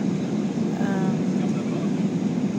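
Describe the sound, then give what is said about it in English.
Airplane cabin noise during the landing approach: a steady, low, roaring drone of engines and airflow that holds at an even level throughout. “And we are on approach. I think we will be landing very soon.”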